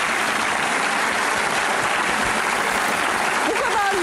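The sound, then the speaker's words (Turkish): Steady applause rings out after a turmeric-colored salad is prepared in a kitchen, a dense, continuous patter of clapping that holds at an even level throughout, with a voice briefly surfacing near the end. “Alkış hak ettim.”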